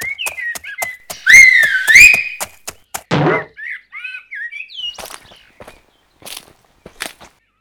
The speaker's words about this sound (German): Plötzlich hörte sie einen durchdringenden Pfiff.